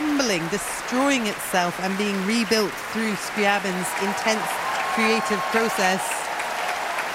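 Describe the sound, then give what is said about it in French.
Audience applause for the woodwind section at the Bayreuth Festival, a steady wash of clapping running under continuous speech from start to finish. “Huge cheer there for the woodwind section.”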